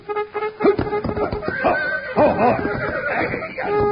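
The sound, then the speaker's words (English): A trumpet plays a cavalry charge call. Bright, brassy sustained notes sound over a busy, clattering background. “That's the cavalry charge. That ain't taps.”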